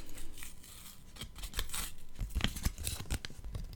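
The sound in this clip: A paper note from a best friend is handled, giving soft irregular rustling and crinkling with many small crackles, quiet and with no talk.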